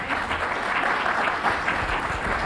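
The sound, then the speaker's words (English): A church audience claps after a speech, producing a steady patter of many hands at moderate loudness that holds evenly throughout. “Please, you don't need to clap. If anything, just thank God for his word.”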